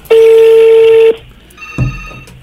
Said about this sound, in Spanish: voy a marcar en este momento.